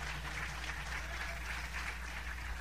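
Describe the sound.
Applause from a church audience, a steady, dense clatter of clapping that holds an even level through the whole stretch, with a low hum underneath.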